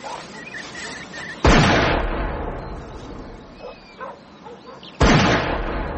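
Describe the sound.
Two shotgun shots ring out during a morning game shoot, each a loud sharp blast trailing off into a long fading tail, separated by a few seconds of quieter background.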